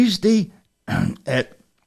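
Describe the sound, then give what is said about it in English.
Throat clearing, heard as three short, rough vocal bursts separated by brief pauses, moderately loud and alone. “Pardon me, got a little frog in my throat.”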